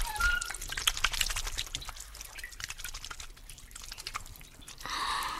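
Water drawn from a well drips and splashes in irregular drops and small trickles, fairly faint and uneven, with no talk over it.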